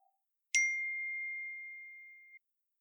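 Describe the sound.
Phone notification chime for an incoming voice message: a single clear, high ding that starts sharply and rings on as a steady tone, slowly fading over nearly two seconds before cutting off.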